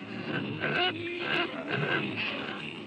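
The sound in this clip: Pigs being driven into a pen grunt and snort in a steady stream of low, rough calls, at a fairly faint level throughout.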